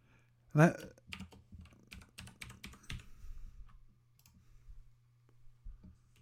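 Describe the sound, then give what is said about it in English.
Typing on a computer keyboard during an online login: one sharp opening tap, then quick irregular bursts of key clicks, a pause, and a few final strokes. “I typed it in wrong.”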